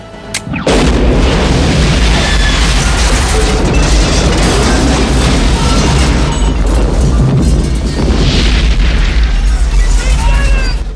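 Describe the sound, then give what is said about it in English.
A huge, loud explosion set off with an explosives timer bursts in suddenly and becomes a dense, sustained roar and rumble that lasts about ten seconds, with crackling debris throughout. “He's unruffled by the explosion behind him.”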